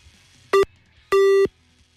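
Busy tone on a telephone line after a call is dialed: two steady electronic beeps at one fixed pitch, the first short and the second longer, with near silence between them and no voices.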